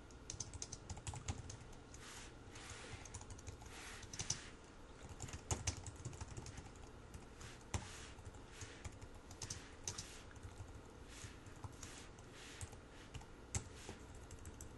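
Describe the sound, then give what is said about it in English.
Someone types a name on a computer keyboard while writing code: many soft, irregular keystrokes and clicks, quiet and steady, with no speech. “All right, so here we're just going to type in the name of the member”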